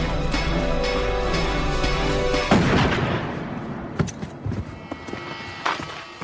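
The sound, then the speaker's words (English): A sharp, loud gunshot cuts through music, and a few fainter thuds and knocks follow afterward. “Valenti shot him.”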